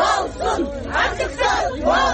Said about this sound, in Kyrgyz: Көп убакыт өтпөй сот имаратынын алдында Атамбаевдин тарапташтары КСДП партиясынын желегин көтөрүп 50 жакын киши топтолуп келишти. Алар Атамбаевди камактан бошотууну, ачык соттун болушун талап кылышты.